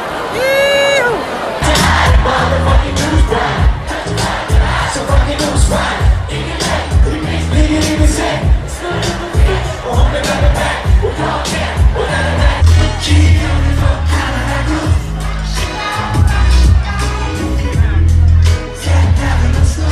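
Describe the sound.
A concert crowd at Gröna Lund's main stage in Stockholm cheers and whoops on a sunny evening. The loud, continuous mass of voices rises over driving music with a heavy, thumping bass.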